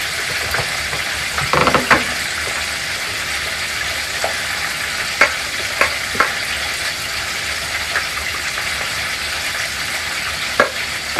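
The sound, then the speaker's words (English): Cream being stirred into potatoes in a pot makes a steady soft, hissing churn, broken by a few sharp clinks of the spoon against the pot. “Just add a little bit more cream, a little bit more cream, a little stir.”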